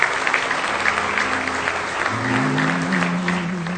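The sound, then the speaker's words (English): A church audience applauding at an evening service to welcome visitors, with steady, dense clapping throughout and a sustained musical tone rising beneath it in the second half. “So welcome, guys. Glad to have you here with us. Give them a hand.”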